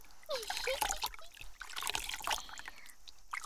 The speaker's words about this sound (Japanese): よいしょっと、ザバーン。しっかり泡を出して